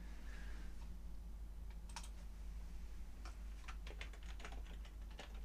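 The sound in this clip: Typing on a computer keyboard: faint, irregular key clicks in short bursts over a steady low hum.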